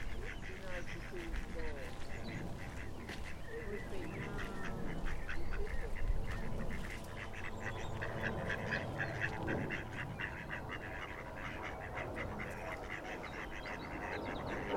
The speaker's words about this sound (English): Is that a duck? Yes. Yeah. Maybe we should go a bit nearer the ducks before we go.